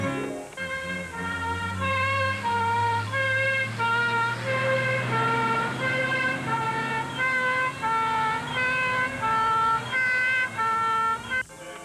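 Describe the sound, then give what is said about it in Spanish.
A fire engine siren in a 1972 film with a Spanish TV dub, marking the firefighters' arrival: a loud, steady two-tone wail that switches back and forth at a regular pace over a low drone. “No te preocupes, los bomberos han llegado.”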